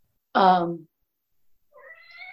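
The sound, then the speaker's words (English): A house cat gives one loud, clear meow, then a fainter, higher-pitched call follows after a short pause. “Give me a second. I have to let my cat out.”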